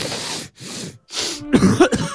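Harsh, congested coughing from someone with a cold, a few rough bursts in quick succession, the last ones turning throaty and voiced.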